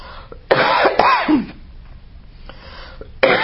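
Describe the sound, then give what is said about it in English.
Harsh coughing and throat clearing come in a few loud, rough bursts separated by a quieter pause, with no speech. “Excuse me, I got something caught in my throat.”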